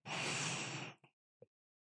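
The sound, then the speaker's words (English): A deep breath drawn in through the nose: a single loud, airy inhale of about one second, followed by two faint, brief breathy puffs, with no talk. “And now let's take a big, deep breath in together, in through your nose.”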